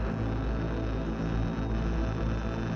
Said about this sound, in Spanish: No es otra cosa que la estática. Ustedes también podrán oírla ahora.